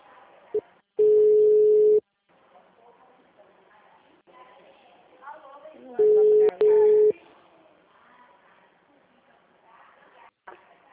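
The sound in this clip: Steady, mid-pitched telephone tones after a dropped call: one long, even beep, then after a pause two shorter beeps in quick succession, with faint voices murmuring in the background between them.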